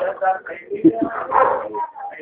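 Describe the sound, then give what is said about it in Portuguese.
Dogs barking and yipping under a person talking steadily, the barks loud and scattered across the whole stretch. “Deixa eu ir lá dentro, que tá um barulhão de cachorro aqui.”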